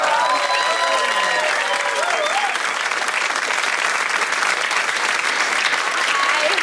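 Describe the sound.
Audience applause and cheering at a show as the host's wife is brought out on stage. Loud, dense clapping holds steady throughout, with voices calling out over it in the first seconds.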